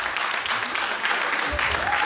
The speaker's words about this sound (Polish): Jeszcze raz wielkie brawa